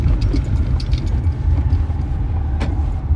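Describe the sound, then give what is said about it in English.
A police car passes through a neighborhood, its engine and road noise a steady low rumble that fills the whole clip with no siren and no talk. “It's the cops. It literally is the police, but yeah. Whatever. The police is in the neighborhood. The popo.”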